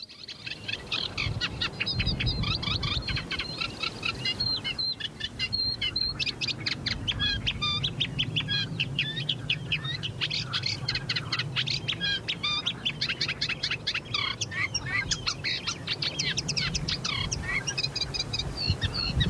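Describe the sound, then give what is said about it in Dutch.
A Eurasian reed warbler sings in reeds, a long, dense chatter of rapid, repeated chirping phrases. The grating, rhythmic notes continue without pause through the whole clip, and no voices are heard. “In onze cursus Vogelzang zijn we aangekomen bij de kleine karakiet.”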